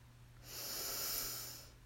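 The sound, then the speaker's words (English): A single slow, deep inhale during a guided breathing exercise, soft and airy, swelling and then fading over about a second. “let's take a deep breath in together”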